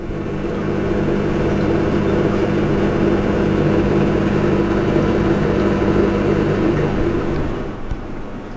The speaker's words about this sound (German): Was Sie gerade gehört haben, ist ein Geschirrspüler.